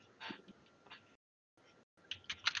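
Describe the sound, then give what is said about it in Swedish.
Typing on a computer keyboard: quick, quiet key clicks in irregular bursts, broken by a brief silent gap, heard alone without talk. “jag måste bara skriva lite så jag inte glömmer bort”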